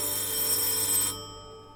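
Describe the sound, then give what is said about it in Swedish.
A doorbell ringing at a home at half past eight in the evening: one continuous, bright metallic ring lasting about a second before it cuts off, leaving a faint hum. “Klockan blir 20:30 och det ringer på dörren hemma hos Dalenius.”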